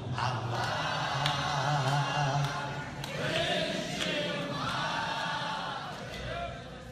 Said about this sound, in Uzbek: Zalning Hofizga jo'r bo'lishi.